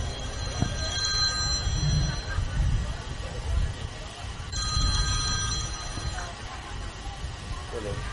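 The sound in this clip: A telephone ringing in two bursts of high, trilling bell tone, separated by a pause, over a low rumbling background.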